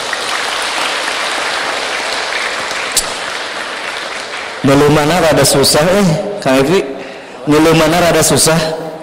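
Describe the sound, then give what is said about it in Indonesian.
An audience at an Islamic study gathering applauds the ustadz who is speaking. Steady clapping lasts about four and a half seconds, and then a man talks alone. “Boleh sekali lagi tepuk tangan untuk beliau.”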